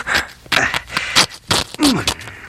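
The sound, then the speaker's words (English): A sharp sword cuts through the skirt of a robe, giving a string of short, rasping tearing scrapes in irregular bursts. “Just hand me your sword. Here, and it's sharp, too.”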